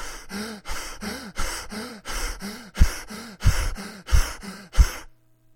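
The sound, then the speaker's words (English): Heavy panting breaths after running a mile at full pace, many voiced gasping inhales and exhales in a quick, steady rhythm, fairly loud, stopping shortly before the end. “Even the most healthy person in all the world, when they've finished running a mile at their best pace and speed, will sound like this.”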